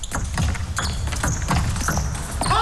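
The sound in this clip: A table tennis ball is struck for a serve during a competitive match, with a few sharp, hollow taps of the ball against bat and table.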